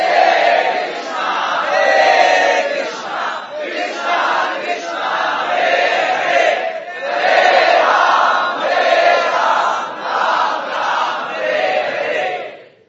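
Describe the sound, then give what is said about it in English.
A crowd chants the holy name together in sustained, rhythmic devotional phrases. Many voices blend into a loud, steady wall of song that rises and dips slightly between lines and continues throughout. “This is the great gift of chanting the holy name.”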